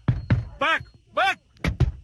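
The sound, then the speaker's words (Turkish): Fists and a stick pounding on a car window during a street fight: a few sharp, heavy thumps in two quick bursts, with loud shouting between them. “Biri yumruklarıyla aracın camına vurdu, diğeri motorundan çıkardığı sopayla.”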